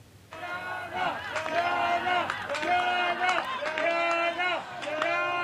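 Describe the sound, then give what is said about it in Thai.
Rescue workers cheer together after pulling a 31-year-old doctor from the rubble of a collapsed building. Group shouts rise in repeated, chant-like bursts, moderately loud and excited. “เจ้าหน้าที่กู้ภัยส่งเสียงแสดงความยินดีนะคะหลังจากช่วยเหลือคุณหมอวัย31ปีออกมาจากใต้ซากปรักหักพังของอาคารได้สำเร็จ”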